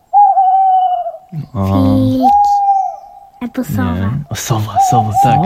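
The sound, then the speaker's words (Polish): Owl calls: long, drawn-out, clear tonal hoots that hold a steady pitch, loud and repeated a few times, with a voice talking in between them. “Sowa. Sowy to są królowie nocy, prawda?”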